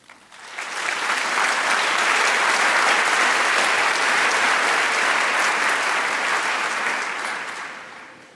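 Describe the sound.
An audience applauds to welcome a speaker, the clapping swelling quickly within the first second into a thick, steady roar, sustained for several seconds before tapering off toward the end.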